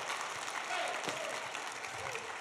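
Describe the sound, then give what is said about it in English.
An audience applauds during a Sunday night church service. The clapping is faint but dense and continuous, lasting a couple of seconds. “put those hands together and give Jesus Christ the greatest hand clap that you've ever given anybody”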